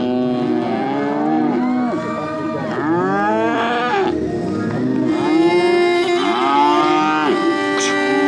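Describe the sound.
Cattle and calves moo at a livestock competition, with loud, long bellows following one another and overlapping throughout.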